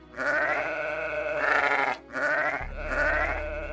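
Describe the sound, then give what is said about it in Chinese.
Sheep from a flock bleating loudly in two long, wavering, nasal calls, one straight after the other, over a low rumble. “某天，摩西正在为他的岳父牧羊，他带着羊群到了神的山，就是何烈山。”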